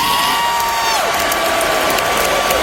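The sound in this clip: A concert crowd cheers for Iron Maiden at a show on the Canadian side of Lake Ontario, a dense continuous roar with a sustained whistle-like tone that slides down in pitch partway through.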